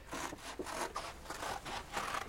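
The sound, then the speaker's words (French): Scissors cutting a footprint shape out of paper: a steady run of raspy snips and rustling paper, fairly faint and rhythmic, with no talk. “Découpez cette empreinte de pas que vous voyez fort distinctement. Voilà, les ciseaux et le papier.”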